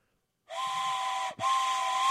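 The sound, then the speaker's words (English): A train whistle sounds in two steady, bright, high-pitched blasts separated by a brief cutoff. The second blast runs to the end at about the same loud level. “That deserves an off-the-rail train whistle.”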